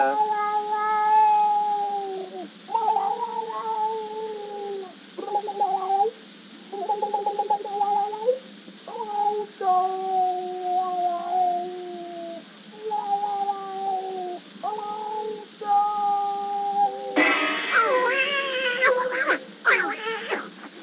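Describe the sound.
A voice imitates a cat's meowing in a song, with many drawn-out, tuneful meow-like cries repeated in separate phrases and short gaps between them.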